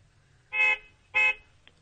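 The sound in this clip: Two short car horn honks of equal length, evenly spaced and fairly loud, each a bright buzzy blare, heard alone with a tiny click at the end.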